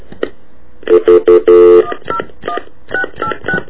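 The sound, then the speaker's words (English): Telephone keypad tones as a number is dialed. Four loud beeps come in quick succession, the last held longer, followed by a series of shorter, fainter beeps. “I dialed the wrong number”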